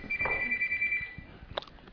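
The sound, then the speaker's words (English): A phone rings during a group discussion: a single sustained electronic tone lasts about a second over low background noise, followed shortly by a brief knock. “Does somebody not know their phone is ringing?”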